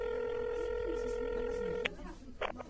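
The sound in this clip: A telephone call being placed: a steady electronic tone holds for nearly two seconds, then cuts off with a click, followed by a few brief, uneven sounds.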